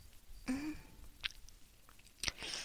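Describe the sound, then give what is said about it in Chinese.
Chewing on a large fruit jelly with pieces of fruit inside: a few faint, soft, wet bites and squelches spaced apart, with no talking. “我在吃果冻。”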